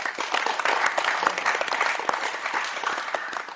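Audience clapping: a dense, even patter of many hands that holds steady throughout without breaks.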